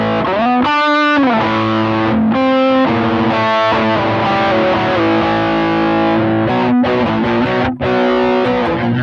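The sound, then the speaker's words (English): An electric guitar runs through a pedal at an extreme overdrive setting, giving loud, heavily distorted, sustained notes and chords with a few brief breaks between phrases. “this is the same pedal on a more extreme setting of the overdrive”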